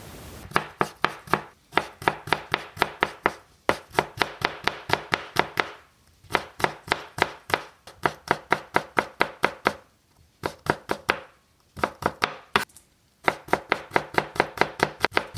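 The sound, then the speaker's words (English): Vegetables being chopped for a meal of almond-crusted chicken and veggies: many quick, evenly spaced knife strokes in steady bursts, separated by brief pauses. No voices. “and the chopping of vegetables.”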